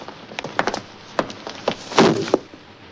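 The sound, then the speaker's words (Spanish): A police officer stomps on a lizard: several sharp, woody knocks and thuds in uneven succession, with a heavier, broader impact near the end followed by one more knock. “Un policía lo aplasta de un pisotón.”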